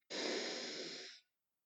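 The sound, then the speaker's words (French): One deep inhalation during a guided practice, a steady airy breath of about one second that starts and stops abruptly, heard alone and quiet. “Konkiachartu, inspirez profondément.”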